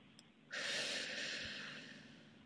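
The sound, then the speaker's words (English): A single long, deep breath, taken during a guided relaxation moment. It rushes in abruptly as a soft, broad hiss, holds, then slowly tapers off. It is faint and heard alone, with no talking. “Take a deep breath.”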